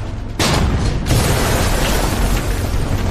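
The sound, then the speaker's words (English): Artillery shells from a self-propelled gun exploding against houses: two heavy booms in quick succession, then a loud, dense rumbling roar that continues to the end. “The armor begins to lob shells at the houses in Hoven.”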